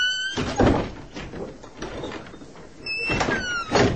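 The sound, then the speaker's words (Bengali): A door being opened, with a few dull thunks and rattling, scraping bursts. Steady high tones sound throughout, with no talk. “দরজা খোল।”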